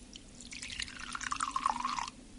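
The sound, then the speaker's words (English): Vinegar being poured into a glass that holds a bubble bath mixture: a short, faint trickle of liquid with drips and splashes, and no talking. “I've got some vinegar here. If I take some of this and pour it into the glass with the bubble bath mixture...”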